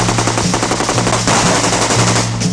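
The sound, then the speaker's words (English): AK-47 assault rifle firing in sustained fully automatic bursts: a loud, dense, rapid stream of shots that continues without a break, with no voices. “This is the AK-47 assault rifle, the preferred weapon of your enemy, and it makes a distinctive sound when fired at you, so remember it.”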